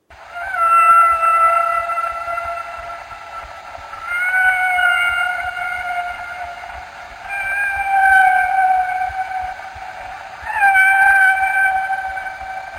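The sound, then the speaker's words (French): Humpback whale song: four long, tonal moaning phrases with rich harmonics, each lasting a few seconds and bending slightly in pitch, loud and clear with nothing else heard. “Tout d'abord, le son d'un chant d'une baleine à bosse.”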